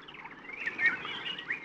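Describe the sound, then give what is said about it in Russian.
Birds singing in trees, a faint, continuous stream of thin, high chirps and warbles with no clear pauses. “Его разбудило пение птиц на деревьях далеко внизу.”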